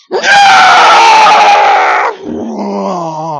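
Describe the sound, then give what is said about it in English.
A man lets out a loud, sustained high-pitched scream as he charges down a hill, holding it for about two seconds before dropping into a lower, strained yell. “every time I do crazy stuff, if I scream, I feel better. And that's what I did. I just went,”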